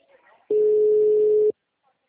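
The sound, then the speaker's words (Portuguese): A single telephone ringback tone plays while an outgoing call is placed to a client: one steady mid-pitched tone lasting about a second, with silence on either side. “Tô ligando pro outro cliente.”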